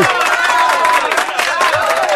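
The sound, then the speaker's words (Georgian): On a Georgian television show, a studio audience keeps up loud, steady applause, with cheering voices mixed into the clapping. “რამდენს უხთით ამ ტაშის დამკვრელებს, ასეც რა გამიტებით იკრავენ, კაცო?”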